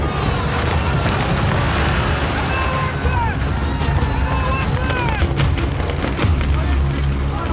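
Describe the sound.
Heavy gunfire as a man shoots down his own surrendering soldiers: a loud, dense stream of many overlapping shots and booming reports that continues without a break.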